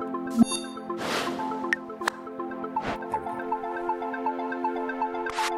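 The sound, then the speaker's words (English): Electronic jingle from a trivia game app on a phone: a steady, bright tonal melody of layered synthetic notes, punctuated by a few short whooshing bursts, with no voices. “that sound is the sound of a brand new app that I just got for my phone.”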